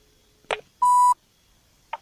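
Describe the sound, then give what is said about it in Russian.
A single steady electronic telephone beep after the other side hangs up: one clear mid-pitched tone lasting about a third of a second, with brief clicks before and after it. “Смотри, он опять трубку бросает. На каком основании он бросает трубку?”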